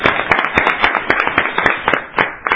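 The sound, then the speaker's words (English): Scattered applause at a meeting: irregular, fairly sharp claps from a small group, uneven in rhythm and moderately loud, with no talking over them. “Round of applause.”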